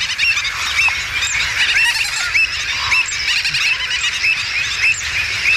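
A loud, dense din of a mixed waterbird colony at a wetland lagoon: terns, gull-billed terns, black-headed gulls, flamingos, avocets and stilts. Many overlapping shrill squeals, honks and cries pour out continuously, with no pause.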